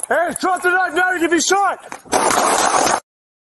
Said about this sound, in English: Shots fired.